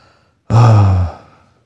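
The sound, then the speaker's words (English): A voice imitates a deep, solemn groan: a single sustained low moan that starts abruptly, holds loud for about half a second, then fades away. “it's more a deep, solemn groan, you know, more like a,”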